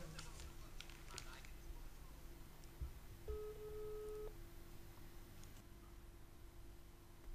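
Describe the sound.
A telephone busy signal sounds on a line that stays engaged, heard as a single faint, steady low beep lasting about a second against a soft background hiss.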